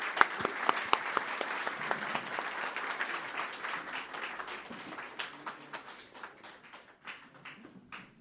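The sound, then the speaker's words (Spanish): An audience applauds at a community gathering. Clapping is full and dense at first, then thins over the last few seconds into scattered, separate claps. “Bueno, pues vamos a agradecerle de nuevo con un aplauso”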